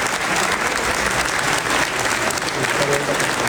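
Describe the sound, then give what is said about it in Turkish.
Applause fills a parliament chamber as President Erdoğan is invited to the podium. The clapping is dense and steady, a loud, continuous patter that holds its level throughout. “Kurtulmuş daha sonra konuşmasını yapması için Başkan Erdoğan'ı kürsüye davet etti. Erdoğan alkışlarla karşılandı.”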